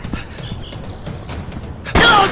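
A single gunshot during a wartime chase: a sudden, loud, sharp crack near the end, following a stretch of faint rustling and low noise.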